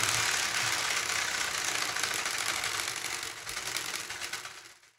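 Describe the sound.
A homemade prize wheel spinning, its rapid clicking blurring into a steady buzzing rattle that continues for several seconds and fades toward the end.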